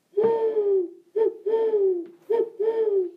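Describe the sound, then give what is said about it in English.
A person whistles to imitate an owl call, giving five breathy hooting notes alone: one long, slightly falling hoot, then twice a short note followed by a longer falling one. “I'll talk to the owls. So I just started doing this weird whistle thing like,”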